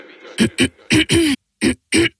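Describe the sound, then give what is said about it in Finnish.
Dry coughing: a quick series of short, sharp, harsh coughs in evenly spaced bursts, loud and separated by brief silences. “Hei, älä suotta köhi.”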